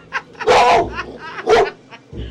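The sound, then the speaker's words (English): A tough-looking female dog barks, with two loud, deep barks about a second apart and short sharper yips and snorts around them. “Well, she's a beautiful dog, but a tough-looking one.”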